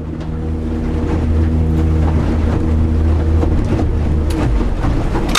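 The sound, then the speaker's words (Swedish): A motorboat drones steadily as it runs out from Skellö to a measuring point at sea. Its loud, continuous engine hum carries steady low tones, with washing and wind noise mixed in and no talk. “Vi kör så där knappt 10 minuter ut från Skellö tills vi kommer fram till mätpunkten.”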